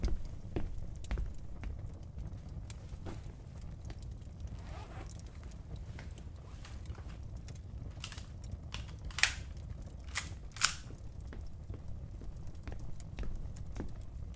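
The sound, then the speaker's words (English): Someone rummages in a bag: faint scattered rustles and light clicks run over a steady low background hiss, with two sharper clicks standing out near the end. “One second. Have to get something from my bag.”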